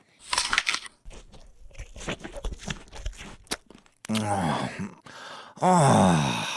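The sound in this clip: Crunchy bites and chewing on an apple, with a voice groaning and moaning contentedly through the loud munching after a stretch of speech.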